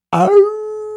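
A man imitates a wolf's howl at the full moon with one vocal cry that opens rough and breathy, then settles into a long, steady, fairly loud held tone.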